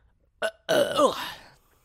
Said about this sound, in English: That's a Boxing Day burp right there.